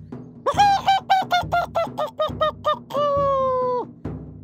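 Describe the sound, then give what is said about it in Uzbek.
A rooster calling loudly after flying up onto a roof and flapping its wings: a rapid run of short, bright clucking cries, then one long sustained crow. No wingbeats stand out. “Shunda xo'roz tomga uchib chiqibdi-da, qanotlarini qoqib, baland ovozda qichqira boshlabdi.”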